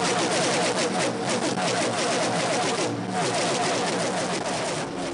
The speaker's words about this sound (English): but the drivers now feel that these cars operate better on the highest portions of this track. One by one, at top speed, sounds like this.